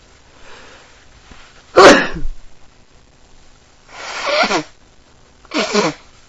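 Three sneezes from someone with morning allergies, each a sharp, loud burst with quiet gaps between, the first the strongest and the last two slightly longer and breathier.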